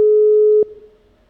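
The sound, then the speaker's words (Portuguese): A telephone line tone sounds as a radio host dials a listener on air: one steady, mid-pitched tone for about half a second, then a click and a faint fading hum. “Atenção, ligando pro ouvinte.”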